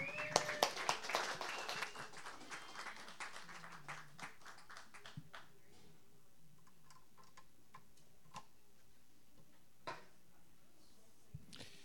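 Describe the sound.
Audience applause welcoming a performer before an original song, dense at first, then thinning to scattered individual claps and fading away.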